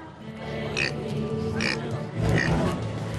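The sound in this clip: A pet pig that fans feed with fruit grunts and oinks: three short, nasal bursts spaced about a second apart, each rising clearly above a steady, hissy background.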